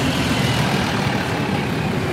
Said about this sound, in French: Un bus qui passe? Oui. C'est le 17.